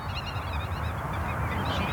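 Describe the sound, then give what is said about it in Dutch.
A black-tailed godwit calls in a meadow, its short, repeated call notes running steadily over a constant low rumble for the whole clip. “Hoor de grutto?”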